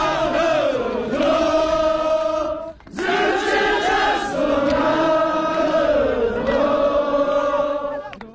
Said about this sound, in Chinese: 村民们又动情唱起留客歌，掌声、歌声、欢呼声在村子里久久回荡。